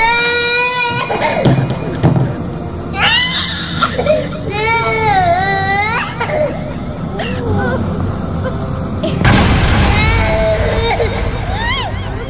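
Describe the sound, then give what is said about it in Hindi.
A baby cries loudly in repeated wailing bursts with warbling, rising and falling pitch, continuing almost without pause over busy background noise. “तभी राजीव को फिर से उस बच्चे की रोने की आवाज आई।”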